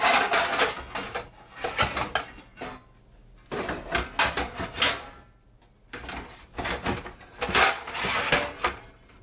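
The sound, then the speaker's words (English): Metal pizza pans clatter and scrape as a frozen pizza is set onto one. Bursts of rattling and knocking come in a few separate rounds, with brief quiet gaps between them. “And we gotta open it up, put it on the pan. Okay. Pizza pan.”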